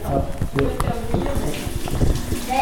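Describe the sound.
A kettle boiling water, giving a continuous rushing, bubbling churn with irregular pops and gurgles that stays fairly loud and steady throughout.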